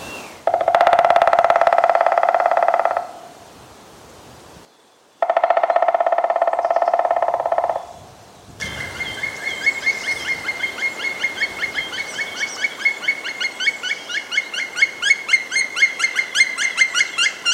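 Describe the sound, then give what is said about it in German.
Black woodpecker calling: a long run of rapid, repeated ringing call notes fills the second half, following two long, steady droning tones earlier on. “Ja, was ihr da gerade gehört habt, das war der Schwarzspecht.”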